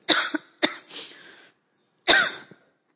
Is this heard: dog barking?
no